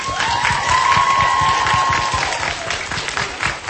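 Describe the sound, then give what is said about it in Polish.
A crowd gathered on a square for an outdoor Pentecost celebration applauds warmly, with dense, continuous clapping that holds steady for the whole clip before easing slightly at the end. “Brawa dla Madzi!”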